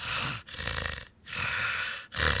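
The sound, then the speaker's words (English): A person imitates a dog's heavy bulldog-like breathing with a few loud, rasping, snore-like breaths in a steady in-and-out rhythm, with brief pauses between them. “And Cash, he breathes like a bulldog. So he breathes like this.”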